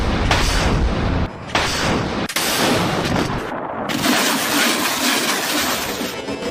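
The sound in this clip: A rocket artillery barrage fires on distant deep targets during an alternating-fire military exercise. It makes a loud, continuous, dense roar of overlapping blasts with a few brief dips, and no talk.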